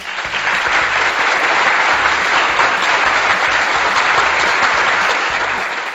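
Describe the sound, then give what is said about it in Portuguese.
Hand clapping rolls on as continuous applause-like patter, dense and even in loudness for the full six seconds without any talk. “E ó, parabéns, estou batendo palma aqui.”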